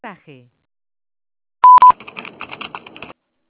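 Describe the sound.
Two short, loud telephone beeps sounding before a call, the second following quickly after the first, with brief talk before them and softer voices afterward.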